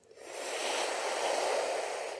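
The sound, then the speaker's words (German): A long inhale drawn through a rolled tongue during a breathing exercise: a steady, airy hiss that swells within the first half-second and holds evenly for about two seconds, with no talk over it. “Versuche dich einfach auf deinen Atemrhythmus einzulassen. Atme durch die gerollte Zunge. Ein,”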